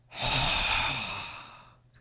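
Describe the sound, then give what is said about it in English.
One long, forceful breath out, a breathy sigh that swells quickly and then slowly fades over about two seconds. “Breathe Satan out.”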